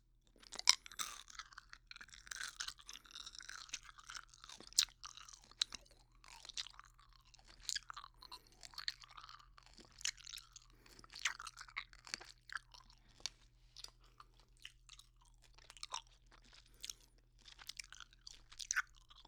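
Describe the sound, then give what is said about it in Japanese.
Peach-flavoured gum being chewed: many wet, crunchy clicks and smacks in an irregular but constant rhythm, with a faint steady low hum beneath and no talking. “では、ガム、噛んでいこうと思います。”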